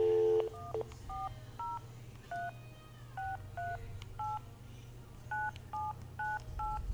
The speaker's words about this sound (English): so I'm going to go ahead and dial it with the 1 in area code like it says.